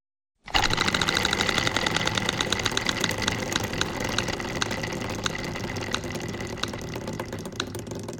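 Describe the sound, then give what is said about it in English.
A prize wheel is spun, sending out a rapid run of ticking clicks that goes on for about eight seconds. The clicks start dense and gradually thin out, with no voices over them. “David the Smart Mark is away, so I'm going to spin this wheel and see who I land on this co-host.”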